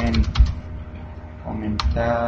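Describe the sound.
Typing on a computer keyboard, with backspace presses deleting a word: a quick burst of crisp key clicks at the start, then a steady low hum and one more isolated keystroke near the end.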